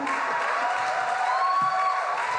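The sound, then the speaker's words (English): Audience applause at a live comedy show, a steady, dense wash of clapping and crowd noise that keeps an even level throughout with no clear breaks. “The applause is getting less enthusiastic”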